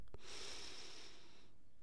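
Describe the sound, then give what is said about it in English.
A deep breath in through the nose and out through the mouth, heard as one soft, airy rush of breath lasting over a second, faint and alone. “Deep breath in through the nose. Hold it and out to the mouth.”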